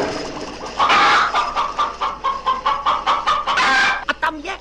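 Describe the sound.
Chickens clucking in a henhouse: a flurry of many rapid, agitated clucks and squawks, fairly loud and continuous, with no voices.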